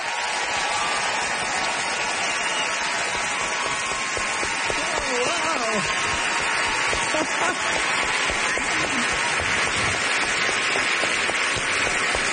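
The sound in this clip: Warm audience applause welcomes tonight's guest of honor, a continuous, hissing roll of many hands clapping that holds steady throughout, with a few voices rising over it.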